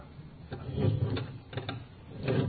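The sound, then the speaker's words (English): A window being opened gives a few short mechanical rattles and scraping clunks, spaced irregularly over a low background rumble, with the last burst loudest. “I need to open a window. I'm going to open a window.”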